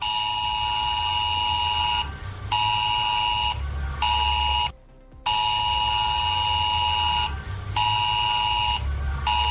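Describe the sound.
ES-Alert emergency warning tone on mobile phones in Cantabria, around Santander and Camargo: a loud, steady, buzzing alarm tone with layered harmonics, broken by one short silence midway before it resumes unchanged.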